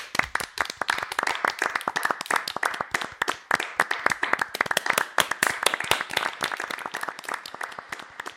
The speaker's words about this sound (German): Ich habe immer für mich applaudiert, so am Anfang des Tages. So ein Klatscher, damit ich irgendwie emotional.